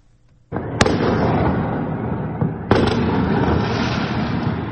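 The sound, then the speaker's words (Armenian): Fireworks go off in city streets at around half past one at night: a loud, sustained crackling roar begins suddenly and is punctuated by two sharper bangs. “Սահաթաշ չէ մարտական ֆիլմից, այլ հրավառություն, գիշերը 1:30-ի սահմաններում, Սարյան-Պուշկին փողոցներում։”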